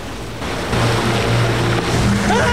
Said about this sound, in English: The plane drops from the sky and belly flops into the river.